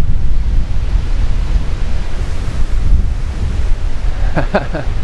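Strong wind blows straight into the microphone, producing a loud, continuous low rumble and buffeting roar that fills the whole clip with little change.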